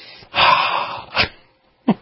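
A deep breath: one long, heavy, noisy breath is followed by two shorter breathy puffs, all fairly loud and with no talking.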